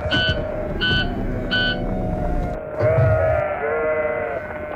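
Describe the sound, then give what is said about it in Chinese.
An injured lamb that has strayed from the flock gives three short, high, nasal bleats in quick succession, followed by a steadier tonal sound. “那边有只掉队的小羊，好像受伤了，咱们过去救救他吧。”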